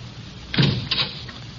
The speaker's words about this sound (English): Come on, lock the door with me.